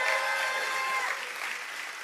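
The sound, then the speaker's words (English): Brief applause from a church audience, a faint, even patter of many clapping hands that eases slightly toward the end. “So everybody, make some noise for the online viewers.”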